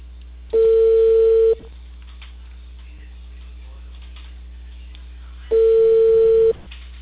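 Ringback tone of an outgoing phone call ringing on the line: two steady, evenly pitched tones of about one second each, roughly four seconds apart, over a low constant line hum.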